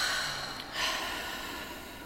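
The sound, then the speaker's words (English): A faint, airy deep breath drawn in and let out through the mouth: a soft rushing sound that swells briefly and then eases off slowly. “we can take a deep breath in and out through the mouth.”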